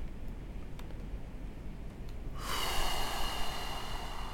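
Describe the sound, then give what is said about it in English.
Breathing right on a microphone. A soft, noisy hiss runs for the first half, then a loud rush of air swells in and holds to the end. No voices are heard. “He's breathing on the microphone”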